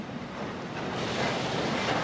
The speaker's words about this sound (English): This is Ukraine's biggest port in the city of Odessa on the Black Sea.